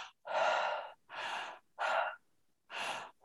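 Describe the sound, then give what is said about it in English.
Circular breathing through an open mouth with a relaxed jaw and throat: loud, airy breaths that rush in and out in a steady rhythm, each lasting about half a second, separated only by very short gaps. “open your mouth, relax your jaw, relax your throat, and remove the pauses between the inhales and the exhales, and keep your breath circular. So it's like,”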